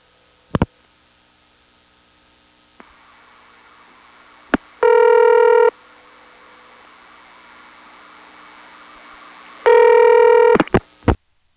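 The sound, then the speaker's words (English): Telephone dialing and connecting for a long-distance call to a 629 area code: a few sharp clicks, then two loud buzzing ringback tone bursts of about a second each, with more clicks around the second tone. “It's 1 plus a 629 number. And notice how this call goes through.”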